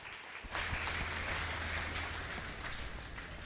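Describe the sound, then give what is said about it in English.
Warm applause welcoming a guest speaker at a church retreat: after a brief quiet moment, clapping starts abruptly and continues as a steady, even roar to the end. “所以我们来热烈的掌声来欢迎他。”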